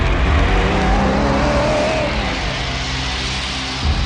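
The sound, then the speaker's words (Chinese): Car engine starting and driving away, a loud revving roar with a wavering engine tone that settles into a steady drone, then swells again briefly at the end. “黑木慈说完，开车走了。”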